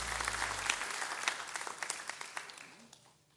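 Applause from the audience at Mount Stage, with a dense burst of clapping that gradually thins into scattered individual claps and fades away toward the end.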